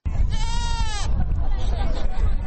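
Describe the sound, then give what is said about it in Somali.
A sheep or goat bleats at a livestock market in Hargeisa where sheep, goats and camels are bought and sold. One drawn-out, wavering bleat rises above a steady wash of crowd noise. “waxaan dhex taaganahay saylada gadista iyo iibsashada xoolaha ee magaalada Hargeysa. inkastoo ay adh iyo geelba lagu kala iibsanayo, haddana dadku waxay inta badan ku urursan yihiin oo ay kala iibsanayaan waa adhi.”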